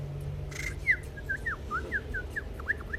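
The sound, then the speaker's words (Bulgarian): A small bird chirps at a window, giving many short, bright rising chirps in an irregular series over a low, steady hum. “по прозореца чука някакво пиленце. Ей, отвори му де! Чакай, пиленце, сега ще отворя.”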